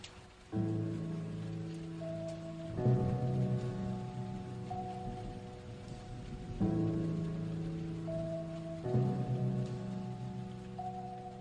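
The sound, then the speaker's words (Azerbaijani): Heavy rain makes a soft, continuous hiss beneath slow, sustained musical chords that change every few seconds, the whole scene faint and steady. “Nə ağır yağış ya.”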